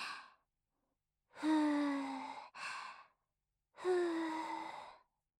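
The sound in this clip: A person blows on hot food to cool it before feeding someone, making soft, breathy, partly voiced puffs. A few long exhalations come with short pauses between them.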